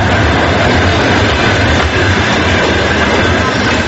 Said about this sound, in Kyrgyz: Ал арада Бишкектеги темир жол бекетинде вагон-вагон менен эмгек мигранттар сыртка агылууда.